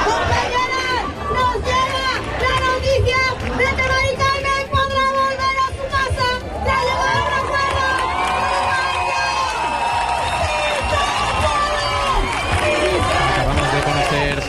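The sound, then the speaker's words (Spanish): Crowd of protesters in Seville, gathered by a tenants' union, chanting a slogan together in celebration of a housing agreement. Loud, continuous massed voices with rhythmic sung phrases, shouts and whoops. “algunas también decoradas con chalecos del propio sindicato, todo mientras el público canta "No nos vamos, nos quedamos".”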